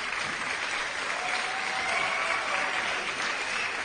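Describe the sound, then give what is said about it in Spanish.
Audience applause as four women are called forward on a variety program: a steady, dense wash of clapping that holds at an even level for the whole clip, with no clear voices. “¡Aplauso para las cuatro que vienen!”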